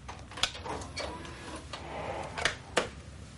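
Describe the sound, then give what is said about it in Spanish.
Video player slot under a screen slid open, a videotape pushed in and the slot closed: a few soft plastic clicks and clunks, faint over a quiet background. “Kakuro abre una corredera bajo la pantalla, pone la cinta y cierra la corredera.”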